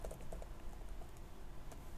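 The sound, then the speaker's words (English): Rapid typing on a computer keyboard during a coding session: many quick, faint key clicks in an uneven rhythm, with no talking. “So now that I've typed this whole thing in”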